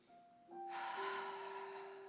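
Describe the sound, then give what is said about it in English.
A deep, slow centering breath drawn in during a guided meditation, a soft, faint rush of air that swells and then stays steady over quiet sustained background tones. “Let's begin by taking a deep centering breath.”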